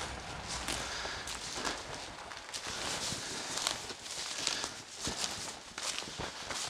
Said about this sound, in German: Letzte Brücke vor dem Bahnhof Linde. Man hört es schon, es klingt ein bisschen hohl.